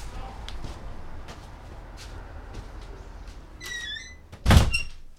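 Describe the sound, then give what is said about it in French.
A window is pulled shut over a steady background hiss. A brief high squeaking scrape leads into a single loud thud as it closes. “Déjà que je vais fermer la fenêtre.”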